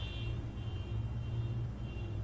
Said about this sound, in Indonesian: Itu mobil siapa ya?